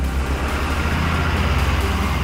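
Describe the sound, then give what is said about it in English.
Buses leave a harbor in Yokohama at a slow crawl behind a police escort, giving a steady, dense rumble of engines and road noise with no pauses and no voices. “The buses leave the harbor with a police escort, slowly crawling through the Yokohama airport.”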